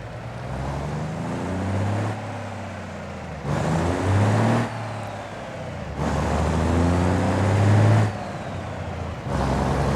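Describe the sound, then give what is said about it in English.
A big rig truck engine in a driving video game keeps up a loud, low rumble that climbs in pitch and then drops back at each gear change, repeating several times without any talk. “And now I've got a big rig. Now, you could drive this with arcade mode. I'm going to put it into gear, and I'm going to drive it.”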